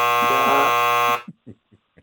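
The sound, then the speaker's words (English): A harsh, loud electric game-show buzzer drones steadily for about a second, then cuts off abruptly, followed by a few brief voice sounds. “At the end of the day, it's a buzzer.”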